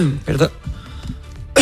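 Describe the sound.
Coughing from a person who is in the middle of speaking, with two harsh bursts and quieter throat sounds between them.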